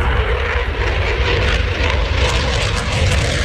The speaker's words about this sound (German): So klingt es, wenn ein Eurofighter startet.